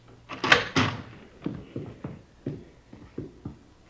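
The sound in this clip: A dining room door is opened, heard as a few soft clunks and knocks of handling and hinge movement, with a couple of louder thuds at the start and quieter ones following at uneven intervals.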